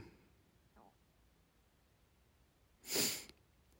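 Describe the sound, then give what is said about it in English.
A single sharp sniff from someone with the sniffles, a brief breathy nasal burst standing out after several seconds of faint, near-quiet background. “I'm not crying, by the way. I just have the sniffles.”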